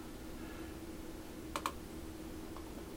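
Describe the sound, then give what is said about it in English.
Typing on a computer keyboard comes through as a few sparse, faint clicking keystrokes over a low steady background hum. “Now I want to use these email links, so I'm going to type”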